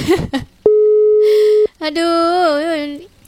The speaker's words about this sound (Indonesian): Tatut-tatut ini muninya ya.